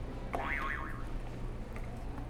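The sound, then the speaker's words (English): A game buzzer sound effect plays a springy boing, a single wobbling tone that leaps up and warbles back down, fairly soft over steady background hiss. “Do you want to hit another buzzer? I know, mm-hmm. I think you hit all of them, so you can hit two at once if you want.”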